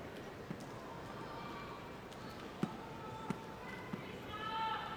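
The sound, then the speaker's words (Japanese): Sumo wrestler Kirishima slapping his own mawashi belt in a packed arena before a bout. A few sharp, hollow pops stand out at uneven gaps over a low, steady crowd murmur. “今ポンポンという音が響いていましたが、これは霧島が自分の締め込みを叩く音。”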